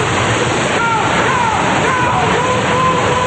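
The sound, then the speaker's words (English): Water gushing straight up from a pool like a huge geyser, blasting out water and debris. It makes a loud, continuous, roaring rush that stays steady from start to end. “The pool gushes straight up like a huge geyser. The four get blasted with water and debris.”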